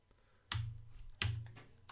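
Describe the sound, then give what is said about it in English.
Two faint computer keyboard key presses used to advance presentation slides, each a short soft click with a low thump, spaced under a second apart in near silence. “Okay, so I can either do this or I can use the keyboard and go,”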